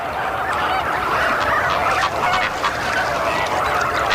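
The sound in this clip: Greater flamingo chicks and a parent call to each other in a crowded colony. Loud, continuous, honking calls overlap with no break throughout.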